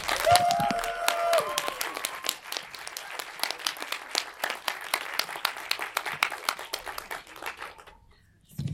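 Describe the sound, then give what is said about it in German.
Audience applause welcoming a guest at a morning event: brisk, dense clapping that starts under a voice, keeps a lively uneven patter, then tapers off and fades out near the end. “Begrüßt mit mir mit einem Tosenapplaus Jennifer Gilke.”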